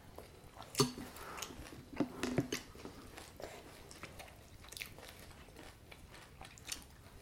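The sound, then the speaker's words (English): Faint wet chewing and smacking of a baby eating porridge, with a few soft squishy mouth noises and small clicks scattered over a quiet background. “You have to have your porridge, baby, so you've got energy for swimming.”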